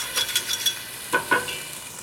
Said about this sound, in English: I've loosened up all those wonderful, flavorful particles in the bottom of the pan.